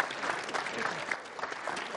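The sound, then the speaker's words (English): Applause from a small group during a truth-or-challenge game among friends: a quiet, steady patter of clapping that runs evenly for about two seconds without a clear break. “Guys, I read all the books. Give a round of applause. It's fantastic.”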